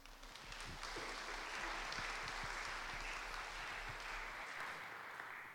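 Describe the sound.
Audience applause welcoming a guest speaker to a morning Bible talk: dense, steady clapping that holds at an even level for several seconds, then thins slightly toward the end.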